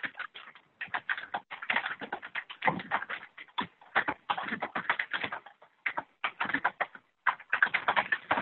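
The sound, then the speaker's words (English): Someone typing on a keyboard during a conference call: rapid, irregular keystroke clatter in bursts separated by brief pauses, thin and band-limited. “For those folks who are not on mute, if you could please mute yourself so we can keep the background noise down. We do have someone typing.”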